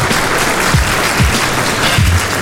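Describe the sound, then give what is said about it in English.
Applause from the audience at a live Monday-night hip-hop showcase, a loud, dense and steady wash of clapping with a few low thumps mixed in. “Round of applause.”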